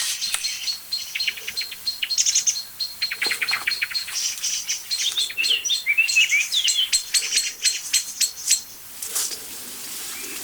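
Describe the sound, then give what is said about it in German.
Birds chirping and calling, with many short, high, quick tweets in a dense, busy stream and varied call shapes mixing in, loud and continuous with no voices. “Das Ganze wird heftiger, weil nämlich eine zweite Vogelart dazu kommt.”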